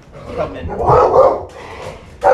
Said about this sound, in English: That dog.